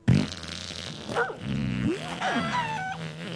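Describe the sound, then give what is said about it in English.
A drawn-out fart with buzzing, squeaky tones that slide up and down in pitch, fairly faint and alone, starting with a short burst and then wavering for a few seconds. “For example, I'm about to fart right now.”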